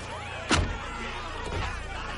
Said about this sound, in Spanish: Cierra el maletero.